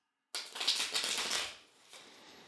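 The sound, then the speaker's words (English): Tarot cards being shuffled: a sudden papery riffle bursts in and rustles for about a second, followed after a short pause by a second, softer flutter. “So just take a moment and connect to the cards by listening into the sound of them being shuffled.”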